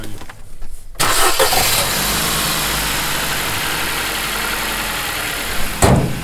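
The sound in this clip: A car engine cranks and catches on an old car whose battery is weak, settling into a steady, loud idle roar, with a brief surge near the end.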